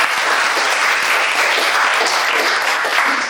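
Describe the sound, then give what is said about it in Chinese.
Loud, sustained audience applause after a plated-dish presentation, a heart-shaped meal designed for elderly people living alone, forming an even, dense roar of clapping with no break from start to finish. “好，掌声送给他。”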